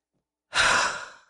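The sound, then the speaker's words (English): One forceful exhale, as in a morning breathing exercise, where stale air is blown out. A breathy rush starts sharply after a brief silence, then tapers off gradually, alone and without talk. “All you got to do is simply exhale”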